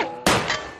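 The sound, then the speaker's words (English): Six-shooter revolver gunshot sound effect: one sharp, loud crack with a quick, decaying tail, very brief and alone. “It's the sound of a six-shooter”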